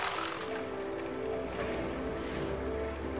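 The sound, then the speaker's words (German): A bicycle coasts downhill on a bright day, making a faint, continuous whir and light rattle under a steady airy rush, with no distinct beats or voices. “Ich fahre auf dem Fahrrad und der Tag ist hell.”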